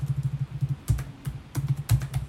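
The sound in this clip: Typing on a computer keyboard: soft, rapid, irregular keystrokes in quick bursts separated by short pauses, with a few firmer strikes standing out.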